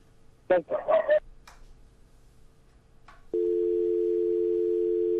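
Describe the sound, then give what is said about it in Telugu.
A telephone tone after a listener's phone-in call drops: a brief voice speaks first, quiet follows, then a steady, unbroken, fairly loud tone sounds and continues to the end. “Call cut అయిపోయింది”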